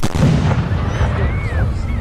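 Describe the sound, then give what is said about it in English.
Large military artillery guns fire in a loud, dense barrage, with heavy booming and rumbling that runs on without clear gaps between the shots. “Artillery. Well, it's all about guns. Very large guns.”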